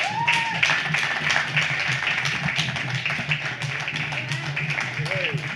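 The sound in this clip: Audience applause welcoming a jazz musician to the stage, dense and steady clapping that continues throughout, with voices and cheers mixed into it.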